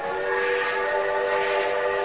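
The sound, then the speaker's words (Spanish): A departing train carrying 120 children sounds a steady, sustained whistle, one continuous bright tone with several harmonics held unbroken throughout. “Pronto partió el primer tren con 120 chicos.”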